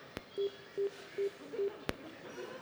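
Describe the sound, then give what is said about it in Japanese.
Dialing on a telephone keypad gives four short, evenly spaced tones of steady pitch, with a sharp click before and after them over a faint background. “ちょっと電話してみようかね。 してみよう。”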